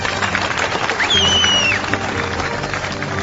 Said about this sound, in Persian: به افتخارشون یه دست بزنید تا روی صحنه بیام.